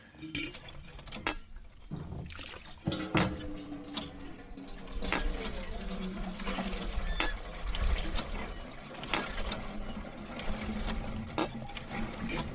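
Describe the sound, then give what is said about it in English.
An old English village water pump drawing spring water up from deep underground, a source used for hundreds of years: a steady splashing, gushing flow with occasional metallic clinks and knocks, heard alone at a fairly even loudness. “That is the sound of our village pump. It draws water up from a spring deep underground that has been used for hundreds of years.”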